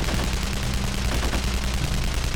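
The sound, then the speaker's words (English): Automatic gunfire from an AK-108 assault rifle rips through woods in a sustained, dense burst of rapid shots that blur into a loud, continuous rattle with a heavy low rumble beneath. No voices are heard. “A burst from Reichert's AK-108 assault rifle ripped the woods in the direction of the village”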